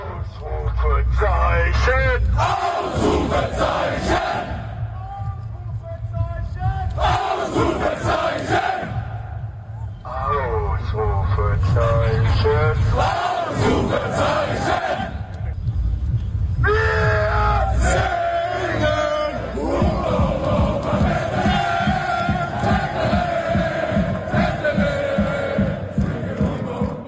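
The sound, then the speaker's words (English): German football fans chanting together in downtown Toronto before a World Cup game against Côte d'Ivoire, loud massed voices repeating a rhythmic chant in bursts separated by brief lulls, with yells between phrases. “And this chant that you're going to hear next is what fired them up before they did a 2-kilometer walk through downtown Toronto.”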